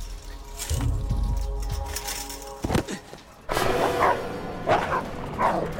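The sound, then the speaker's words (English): Guard dogs bark as they attack a man. A few loud, sharp barks sound over a rough, steady background, after a brief burst of clattering noise. “Guard dogs tear towards him. He's knocked to the ground by the ferocity of their attack.”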